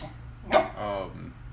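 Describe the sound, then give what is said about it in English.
A dog whines for attention: a sharp, brief yelp, then a softer, wavering whimper, fairly quiet throughout. “My dog wants to inch. Do you want to come up? She just wants attention.”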